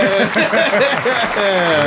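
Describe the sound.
A live audience cheers and claps during a show taping, creating a loud, continuous wash of voices, whoops and clapping with no clear pauses.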